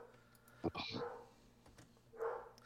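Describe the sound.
A dog barks at a passing mail carrier, giving a few short, sharp barks: a quick cluster early on, a pause, then another bark near the end, fairly loud against a quiet background.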